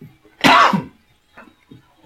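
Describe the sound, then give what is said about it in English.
A single sharp, loud sneeze bursts out and ends quickly, followed by a few faint, soft sounds. “Excuse me, that was a sneeze.”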